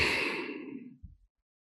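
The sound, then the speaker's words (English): A deep, breathy exhale through the mouth, loud and airy at first, thinning out over about a second. A brief, soft low puff follows before silence. “Take a nice deep breath in and exhale.”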